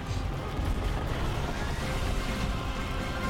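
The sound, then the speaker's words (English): Giant laser guns fire in a video game shown at an E3 demo, a loud, dense, continuous roar with rumbling low end and crackling bursts that hardly let up. “Giant laser guns? No, this is really weird.”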